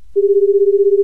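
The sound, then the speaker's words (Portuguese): A telephone tone as a call is placed, one loud steady tone that begins right after a brief low thump and holds for about a second, with no voices. “Eu vou ligar pro Divino agora.”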